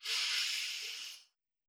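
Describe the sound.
A single long, airy breath from a guided breathing exercise that alternates inhaling through the nose with exhaling through the mouth. It is a steady, fairly loud rush of air lasting just over a second, then stops into silence.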